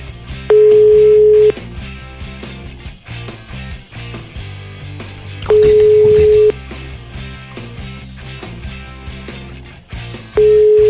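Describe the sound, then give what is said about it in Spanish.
Telephone line tones as a call is redialed: three steady, even beeps, each lasting about a second and spaced roughly five seconds apart, sounding over a constant busy background. “Voy a volver a marcar.”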